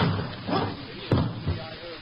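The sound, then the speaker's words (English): People throw themselves against a locked door: one heavy, sharp thud lands, followed by a softer bump, with voices around it. “All we have to do is throw ourselves against it. Okay. One, two, three.”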